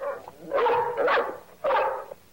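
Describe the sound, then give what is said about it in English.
A dog barks a few times in quick succession, with short, sharp, mid-pitched barks that carry a slightly yelping edge and come in an uneven rhythm with brief pauses between them. “Nearby, a dog barks at a Triffid. Why is he barking?”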